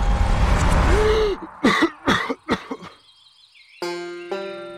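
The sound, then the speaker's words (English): Coughing and gasping for air by someone lying on the ooze-covered floor of a boat after a crushing squeeze to the chest. A rushing noise gives way to a few harsh, rough bursts, followed by steady musical tones. “I roll onto my back, coughing and gasping for air.”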